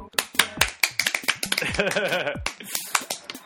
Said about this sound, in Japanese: 拍手していこう。